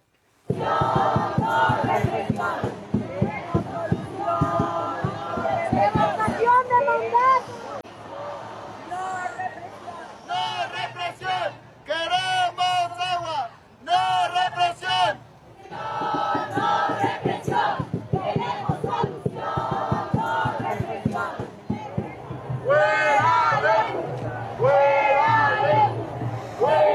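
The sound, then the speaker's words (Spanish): Crowd chanting and shouting at a peaceful street demonstration: massed voices rise and fall in waves, with a few brief lulls between loud, sustained stretches. “Esto fue parte de lo que se escuchaba en la manifestación pacífica”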